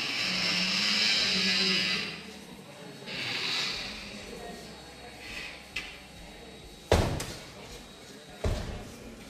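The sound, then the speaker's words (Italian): A metal gate in a biennale art installation swings through 180 degrees and slams against a wall on either side, heard as a few sharp, heavy bangs after stretches of hissing, shifting noise. “Abbiamo un cancello che sbatte contro un muro e gira di nuovo di 180 gradi, sbattendo da una parte all'altra di un muro con una certa cattiveria. Sentiamo il rumore.”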